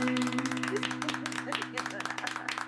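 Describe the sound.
Applause marking the end of a live vocal jazz song. Quiet, steady clapping continues throughout over a sustained low tone, and the clapping thins slightly toward the close.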